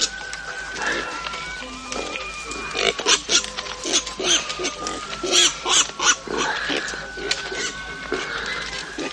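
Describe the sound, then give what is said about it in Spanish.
Pigs grunt in a cart, with many short, rough bursts of grunts and squeals that overlap and swell to louder clusters midway before easing off. “se acerca al carro que está lleno de cerdos”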